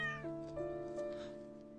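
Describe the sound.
A cat gives one long, drawn-out meow that is quiet and clearly tonal. Its pitch dips early on and then holds steady for nearly two seconds, with no voices.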